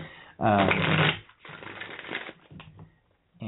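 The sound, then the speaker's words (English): Tarot cards being shuffled for a reading. A loud riffling burst is followed by a few softer rustling, flicking shuffles, with brief pauses between them. “And then I'm going to go ahead and pull cards for each of the areas that you've said.”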